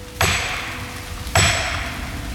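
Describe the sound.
Two sharp, targeted blows struck on a tree before it is felled with a chainsaw. Each is a crisp, ringing impact with a decaying tail, and they come about a second apart.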